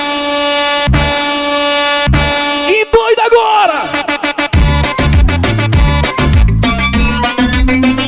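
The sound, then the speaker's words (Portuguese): Truck air horns from a convoy of rigs blare in several loud, sustained blasts over pounding dance music, while voices call out along with the beat. “Olha a buzina das nossas carretas aí acionada.”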